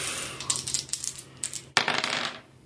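Dice rolled during a tabletop role-playing game's search skill check: many quick hard clicks and rattles, a sharper clatter partway through, then a fading tumble, with no talk over it.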